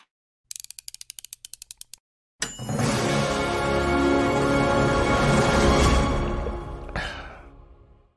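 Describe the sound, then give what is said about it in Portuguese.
An intro jingle for a running-themed show begins with many rapid ratcheting clicks, then falls silent briefly. A loud, broad whooshing swell follows and holds for several seconds before fading out. “Solta a vinheta aí”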